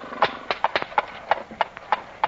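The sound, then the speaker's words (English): A horse's hooves clip-clop as it sets off, giving many crisp, fairly even hoof strikes in a steady walking rhythm. “No matter what you say, the horse will never replace the airplane. On your way now. Get up.”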